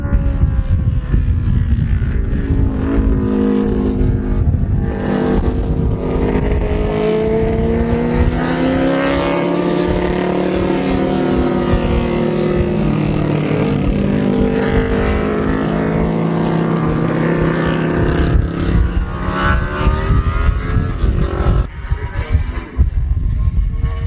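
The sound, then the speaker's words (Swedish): High-revving engine whine from a Benelli multi-cylinder racing motorcycle at the 1970 Isle of Man TT, recorded from a distance on the track, loud and continuous, its pitch sweeping up and down as the machine changes speed. “Den kör tillsammans med en encylindrig fyrtaktare, men det är alltså Benellin som man hör som en flercylindrig maskin. Och det är taget på avstånd när de kör på banan.”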